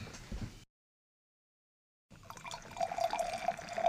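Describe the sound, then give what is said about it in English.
Drinks are poured into glasses, a trickling, splashing stream of liquid that follows a brief sound and a short silence. The pour grows fuller and louder toward the end. “And filling our glasses. I hope you're filling yours. Thank you for the pour.”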